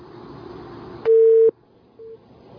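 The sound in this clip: Busy tone after a phone call disconnects: a loud, steady electronic beep follows faint line noise, then a shorter, softer beep at the same pitch.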